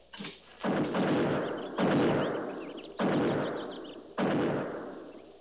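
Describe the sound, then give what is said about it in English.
Buffalo gun gunshots ring out as several heavy, booming reports spaced roughly a second apart, each followed by a long rumbling tail that slowly fades before the next shot. “Buffalo guns. That's one sound they can't muffle.”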